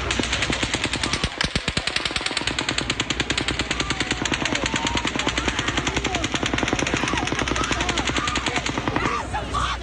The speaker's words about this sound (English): This lull in shooting outside lasted just over a minute and allowed more people to flee. But then a sixth burst of fire.